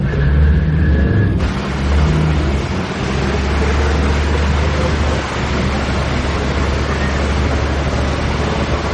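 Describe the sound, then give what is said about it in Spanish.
Steady low rumble of a car being driven, a continuous engine and road drone that stays even and fairly loud throughout, with no clear voices. “El joven sonríe y sigue conduciendo.”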